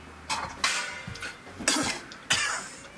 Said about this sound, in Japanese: はい、むせただけです。